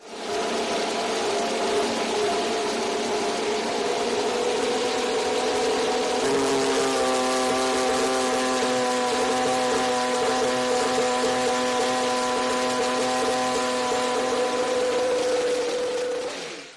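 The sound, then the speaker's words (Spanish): Mercedes Formula One engine starting up, a loud, sustained droning tone that holds steady for the whole stretch, its tone thickening and shifting partway through. “Y de momento también tenemos el motor Mercedes arrancando, el motor del campeón del mundo.”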